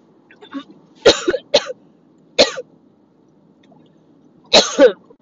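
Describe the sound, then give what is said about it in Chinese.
Harsh coughing from a person choking on their own saliva while driving. A few sharp bursts, some in quick pairs, break out over a low, steady car hum. “不好意思，抱歉，被我自己的口水呛到。”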